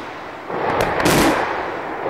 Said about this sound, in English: This is the sound of a full-scale battle underway in the mountains of Dagestan. Militants have attacked a village. Now the government is hitting back with tanks and helicopter gunships.